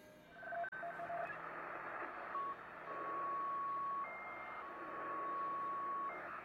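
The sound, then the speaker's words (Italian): Shortwave radio static from an ICOM receiver tuned around the 6 MHz band, a continuous hiss with steady whistling tones that drop in and out, plus one sharp click early on. “E qui siamo tornati alla stazione di prima, perché questo ricevitore ICOM fa il giro.”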